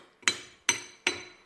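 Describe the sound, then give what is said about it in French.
A spoon clinks against a cereal bowl: three sharp, fairly quiet clinks, evenly spaced, each ringing briefly before fading, with nothing else heard. “Ça, c'est moi avec mon bol de céréales, en train de décrypter la une de Libération.”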